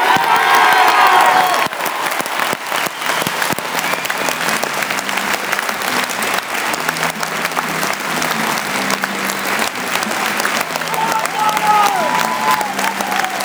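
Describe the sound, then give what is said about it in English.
Sustained crowd applause at Celtic Park as a club legend is welcomed at a charity football match, a dense, loud wall of clapping that holds steady throughout, with faint cheering mixed in. “Celtic legend, put your hands together for Martin O'Neill!”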